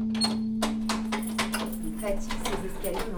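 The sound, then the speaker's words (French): A key turning and scraping in a stiff door lock, a run of many sharp metallic clicks and clunks over a low steady hum. “Elle est dure ta serrure là, non ? Hein ? Elle est dure ta serrure. Ouais, faut que je mette du W40.”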